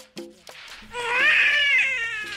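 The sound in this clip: A baby cries, starting with a couple of short sounds, then breaking into a sustained, loud, wavering wail.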